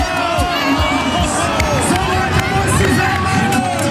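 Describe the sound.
Dense crowd of football fans roaring at a public viewing fan zone in front of the Brandenburg Gate in Berlin; loud, continuous babble with cheering and shouting that rises and falls without a break across the whole clip.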